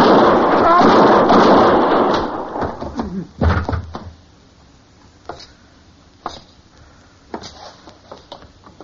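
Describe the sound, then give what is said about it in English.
Gunshots in a western radio drama: a loud, noisy burst of blasts that gives way to several sharp, separate cracks, spaced out and fading in strength toward the end. “You killed both of them, Mr. Dillon. I didn't even get a shot off.”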